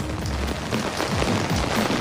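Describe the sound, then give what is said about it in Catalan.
Heavy rain pours onto an umbrella around Tortosa in the Ebro delta region, a dense, steady, loud hiss of drops that continues without a break across the whole clip. “Que veig sota el paraigua i amb una pluja abundant”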